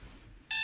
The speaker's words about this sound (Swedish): Du har en elektrisk väckarklocka. Ja, så då har jag skaffat det, och den låter ungefär så här.